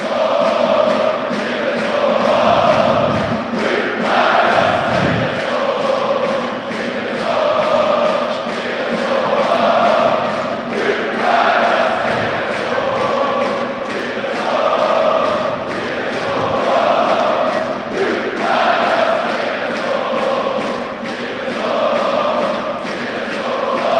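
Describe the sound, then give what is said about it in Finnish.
Ilves football supporters chanting a rhythmic victory chant together after a match, a loud crowd repeating the same phrase in steady cycles every few seconds, with occasional low thuds underneath. “Katsotaan mitä kannattajat ja joukkue yhdessä keksivät. Hyppää, jossa Ilves oot. Klassikko voitto, voitto chantti sieltä lähtee.”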